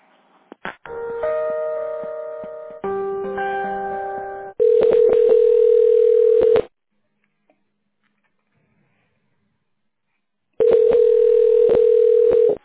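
Telephone line tones play while a call is transferred to a director: first a short run of stepped electronic beeps, then two long, steady ringing tones separated by a long silence.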